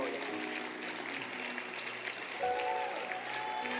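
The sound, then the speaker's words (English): A church audience claps their hands together in a continuous, even patter of many hands, fairly faint throughout. “Clap your hands.”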